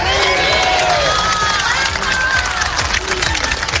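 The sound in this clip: Dense roar of a street protest crowd outside Madrid's city hall, demonstrating against rising prices: many voices mixed with shouts and some clapping, loud and continuous throughout.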